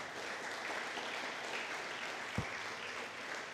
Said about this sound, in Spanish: Denle un fuerte aplauso a Cristo, aleluya.